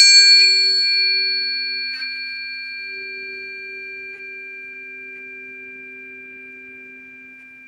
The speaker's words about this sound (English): So we also have tuning forks that we play as pairs. So I'm going to play that for you right now. This is C and G